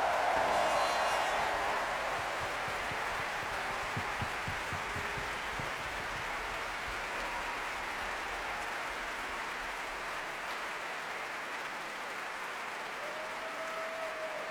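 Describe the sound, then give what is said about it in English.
Applause from a large audience at a Proms concert: dense, steady clapping that eases slightly after the first couple of seconds and then holds. “let's give a big round of applause to the hundreds of artists who have made this year's Proms the most successful ever with 57 sold-out performances. Let's hear it for everybody.”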